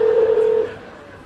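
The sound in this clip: A single telephone keypad tone sounds as 8 is pressed on a hotel room phone during an automated menu. One steady dual-tone beep lasts over half a second, then fades into faint line hiss.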